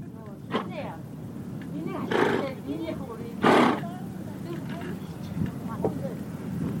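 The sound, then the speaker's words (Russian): Horses neighing, among them a bay stallion: two louder, breathy whinnying bursts stand out over a constant rough background, with softer, lower calls scattered between them. “Какие же у вас красивые лошади.”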